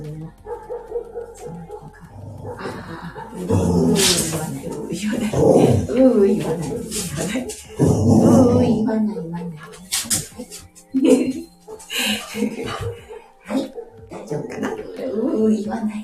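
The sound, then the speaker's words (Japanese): Two pet dogs barking in loud bursts of overlapping yaps, barks and whimpers, while a person talks over them and tries to settle them. “うち2匹のワンコがいるのでね、ハーモニーがね。はい、落ち着いて落ち着いて。”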